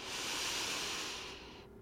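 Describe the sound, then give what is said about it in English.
A deep breath in during a breathing exercise: one long, steady, airy hiss of inhaling that holds for over a second, then cuts off, fairly soft and alone. “Let's do it two more times. Breathe in.”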